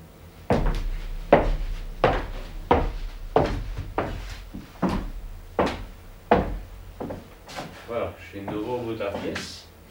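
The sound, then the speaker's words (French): Footsteps on a wooden floor, with many heavy, evenly paced thuds in a steady walking rhythm, then softer shuffling and creaking as the walking slows. “Je vais maintenant marcher sur le plancher.”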